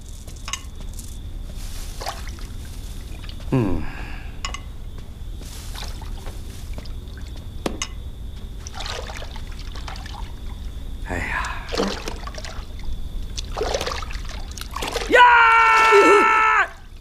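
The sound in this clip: Water pours and splashes into a bath, a steady low rush of running water with a few brief splashes, and a voice calls out loudly near the end.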